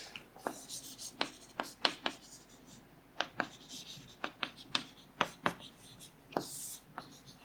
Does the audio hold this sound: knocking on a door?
no